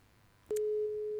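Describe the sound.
A telephone tone plays while a call is placed: a single steady, mid-pitched beep that starts abruptly and holds unbroken to the end, following a brief faint hiss.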